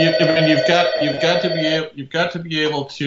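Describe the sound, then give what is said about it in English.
An office telephone rings with a steady, harmonic electronic tone that repeats in short bursts, heard alongside a voice speaking. “This is this phone is my office phone is ringing.”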